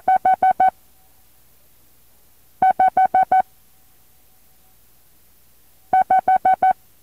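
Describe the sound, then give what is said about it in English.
Morse code for the number five, sent as five dits: three bursts of rapid, evenly spaced short beeps on a steady, buzzy mid-pitched tone, separated by silent pauses. “The first number will be the number 5, and guess how many dits stand for 5? That's right, 5 dits. The number 5.”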